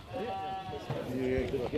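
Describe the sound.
Lambs bleating in an auction pen at a farmyard sheep sale, a few thin, steady bleats that sit low under continuous crowd noise.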